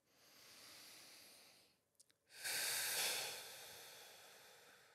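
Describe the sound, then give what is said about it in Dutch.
Guided breathing exercise: a deep breath drawn in through the nose, then a long exhale through the mouth. A soft, airy inhale is followed after a short pause and a couple of faint clicks by a louder, sustained breathy exhale. “Adem in door je neus. En lang uit door je mond. En dan doen we nog één keer.”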